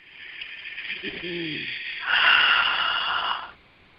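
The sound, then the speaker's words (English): A deep grounding breath taken during a short guided meditation, a soft, airy rush of breath that swells louder in its second half before fading out. “let's just close our eyes and take a couple of deep grounding breaths.”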